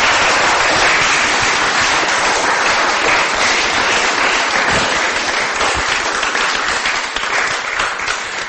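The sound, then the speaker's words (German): Audience applause at a Christian worship gathering: dense, sustained clapping from many hands that stays loud and even throughout and tapers slightly at the very end. “Let's give Jesus praise. Lass uns Jesus ein Klatschopfer bringen.”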